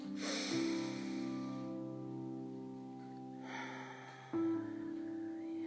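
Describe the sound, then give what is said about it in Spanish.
During a guided meditation, a slow, deep breath drawn in through the nose sounds soft and airy over gentle sustained music, followed a few seconds later by a second, shorter breath. “Toma inhalaciones profundas como cuando despiertas de un sueño.”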